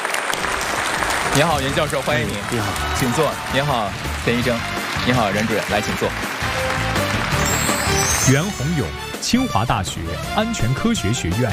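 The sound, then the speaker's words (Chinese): A studio audience on a Chinese television health program applauds to welcome guest experts on emergency first aid during rainstorms. The clapping is loud and continuous, and a voice talks over it. “来，让我们掌声欢迎他们，有请。”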